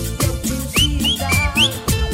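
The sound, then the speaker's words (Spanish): An audience at a dance event whistling a short password tune. The piercing whistled notes sweep upward in a quick run over loud, thumping dance music. “Los que se saben la contraseña, silbátela, silbátela.”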